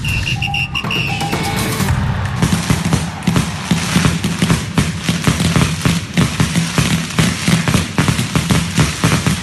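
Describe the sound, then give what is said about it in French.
Fireworks set off at night by football fans outside a team hotel. A few thin whistling tones come first, then a long, loud run of many rapid, crackling bangs. “C'est un feu d'artifice, c'est peut-être aussi la nuit dernière le comité d'accueil des supporters de l'Ajax devant l'hôtel des Spurs.”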